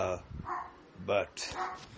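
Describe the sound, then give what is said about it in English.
Dogs bark and yip in a few short, sharp bursts, with a person talking over them. “I'm sorry, I'm having trouble with my dogs.”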